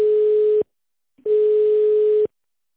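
Telephone call-progress tone heard while waiting to be connected after an automated menu on an office line, sounding as two steady mid-pitched tone bursts, the second longer, separated by a short silence.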